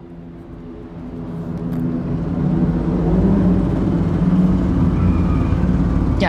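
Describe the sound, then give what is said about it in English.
Street traffic rumbles as a broad engine-like drone swells over the first few seconds, then holds steady and fairly loud, with no voices. “all these sounds from the streets, like Bergsgatan”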